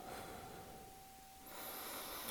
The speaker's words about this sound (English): As we take these breaths together